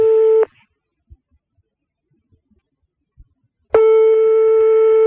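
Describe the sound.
A telephone line tone follows pressing redial: a steady beep cuts off after under half a second. About three seconds of near silence follow, then a second long, level tone begins and holds.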